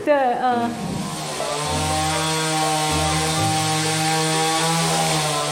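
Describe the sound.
A chainsaw carving a wooden sculpture of a human figure buzzes loudly and continuously. Its pitch sweeps at the start, then holds as a steady, harmonic-rich whine.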